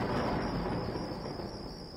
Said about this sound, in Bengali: আর সেই সঙ্গে শোনা গেল দূর থেকে ভেসে আসা মেঘের গর্জন।